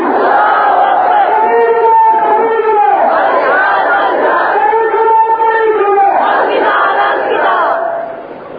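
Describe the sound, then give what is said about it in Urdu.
A large crowd shouts "Allahu Akbar" in unison in answer to a takbir call during a religious speech. The loud voiced chants come in several swelling waves, one after another. “نعرہ تکبیر اللہ،”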